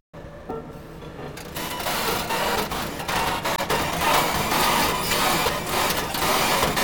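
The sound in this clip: Construction machine in a field recording: after a brief silence, dense mechanical clattering, rattling clicks and grinding build up and run loud and steady throughout.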